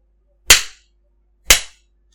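Two sharp, loud spanking slaps land about a second apart. Each is a crisp, bright smack with a quick decay, with silence between them and no voices.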